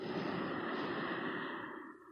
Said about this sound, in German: Atme durch die Nase ein.